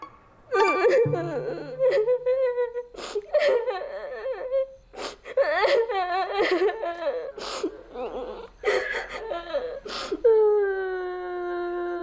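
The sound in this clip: A person crying in a dormitory before a group haircut, with whimpering, sobbing voiced bursts at a wavering high pitch and short breaks between them, lasting through most of the twelve seconds.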